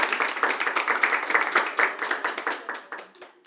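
Light, thin applause from women in a tavern, a steady patter of many individual hand claps with no big swell, easing slightly toward the end.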